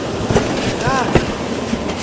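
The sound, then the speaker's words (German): A train slowing down on its rails: a steady rolling rumble with periodic wheel clacks and a brief faint metallic squeal in the middle. “Hey, der Zug wird langsamer!”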